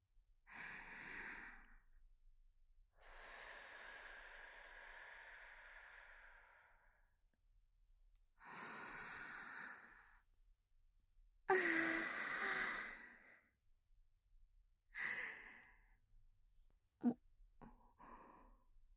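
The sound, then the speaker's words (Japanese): Deep breathing by a person: several slow, audible breaths, mostly long airy sighing exhales separated by quiet pauses, ending with two quick short breaths. “深呼吸しますね。あなたもよかったら一緒に。”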